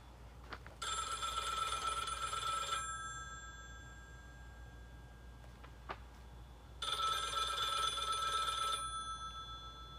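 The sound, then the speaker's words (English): A 1970s-era telephone bell rings in two bursts of about two seconds each, with a pause between them and faint background hiss. “And it was like the phone's actually ringing.”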